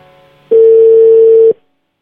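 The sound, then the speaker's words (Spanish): A single flat telephone tone sounds while a call is being placed, one loud, steady beep lasting about a second, followed by silence. “estamos intentándole marcar a Alexia.”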